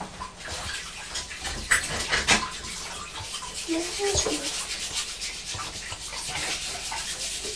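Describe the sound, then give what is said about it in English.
Water rushing continuously while something is washed clean again during biscuit baking with flour, with rubbing and scrubbing scrapes and small splashes over the steady wash. “I'm just going to give this another wash so it's nice and clean.”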